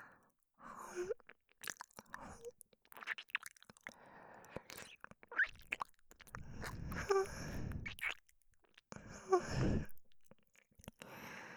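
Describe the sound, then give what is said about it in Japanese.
Soft, wet ASMR mouth sounds of nibbling on ear cartilage, with many irregular faint smacks, clicks and crunchy squelches and short breathy pauses in between. “この軟骨の柔らかさ、ハムハムするの気持ちいいです。”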